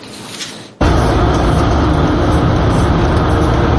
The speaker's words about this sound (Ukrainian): Отак із супроводом автівки з РЕБ і під антидроновими сітками ми їдемо у бік Береслава.